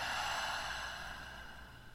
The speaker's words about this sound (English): Another one, deep breath in and out.